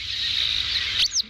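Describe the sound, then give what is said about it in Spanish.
A Montagu's harrier, a small bird of prey, gives a thin, high, continuous call, then ends it with a couple of brief, sharp notes. “Y lo hacemos para conocer una historia de una pequeñita rapaz cuyo nombre tiene un doble sentido. Se llama Aguilucho Cenizo.”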